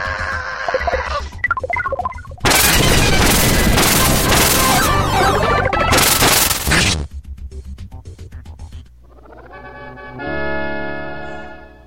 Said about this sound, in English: Is that a huge ball of ice forming overhead? Omega!